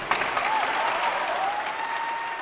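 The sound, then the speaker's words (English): A crowd cheers and applauds in support at a rally inside a state Capitol rotunda. The dense, steady roar of clapping and shouting stays loud throughout, with a long wavering whistle riding on top. “More women stand up to speak and more cheers of support erupt from the listeners.”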